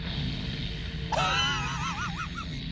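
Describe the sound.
A man groans in a drawn-out, wavering voice whose pitch quivers and wobbles, starting about a third of the way in over a steady low background rumble.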